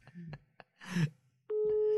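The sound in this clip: A telephone ringing tone plays while the caller waits for an answer. Brief bursts of talk come first, then a steady, unbroken tone fills the second half at an even level.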